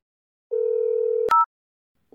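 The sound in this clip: A steady telephone dial tone as a child dials the emergency number 110, holding a flat low pitch, then cut off by a sharp click and a brief higher two-tone key beep, followed by silence.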